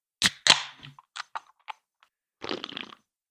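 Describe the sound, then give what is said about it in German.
A can of lemon-flavoured beer being opened: two sharp cracking pops, a few small metallic clicks, then a short bubbly fizz. “Und es ist tatsächlich ein klassisches V plus Lemon in der Dose. Ich mache sie mal auf.”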